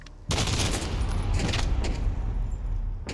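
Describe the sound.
Gunfire in the video game Call of Duty: Modern Warfare: loud, dense bursts of rapid shots that roll together into a sustained, crackling barrage after a brief quieter opening.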